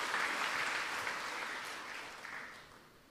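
Congregation applauding in church: continuous, dense clapping from many hands, loud at first and gradually fading toward the end.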